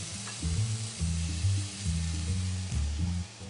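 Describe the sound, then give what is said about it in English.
Steaks sear in a hot pan with a continuous crackling sizzle, steady hiss over a low pulsing hum that swells and eases several times. “Time to get our wonderful steaks in now. Get that sear going.”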